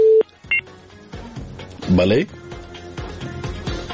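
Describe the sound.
Telephone dialing beeps as a phone line connects a caller: a few short, clear tones at the start, followed by a busier stretch of layered tones and sounds at moderate level.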